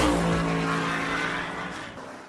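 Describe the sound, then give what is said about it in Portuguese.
A car drifts at a drift festival in the city of Beira, its loud engine roar mixed with squealing tires in a sustained, sliding screech that gradually fades. “A maior festa do drift na cidade da Beira.”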